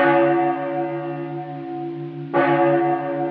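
A cracked church bell, hanging still and struck by hand, rings with a rich sustained tone of layered partials that slowly fade, then is struck a second time and swells again.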